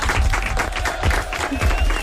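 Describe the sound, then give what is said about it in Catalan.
An audience applauds in a steady burst of many hands clapping together. The clapping stays fairly even throughout the two seconds. “Molt bé. Molt bé, aplaudiments.”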